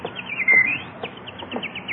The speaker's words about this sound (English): look at that beautiful bird on your lawn.